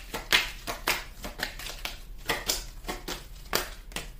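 Tarot cards are shuffled and drawn: a quick, irregular series of crisp papery flicks and riffles, some sharper than others, with no voices over them.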